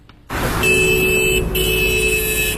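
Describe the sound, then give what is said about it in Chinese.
A black Hyundai sedan sounds its horn while crossing the Huangzhuang intersection beside Haidian Hospital in Beijing. Two long, steady, brassy horn blasts, split by a brief gap, ring out over a continuous rumble of road traffic. “一辆尾号为 R08 的黑色现代轿车一边鸣笛一边通过了海淀区海淀医院旁的黄庄路口”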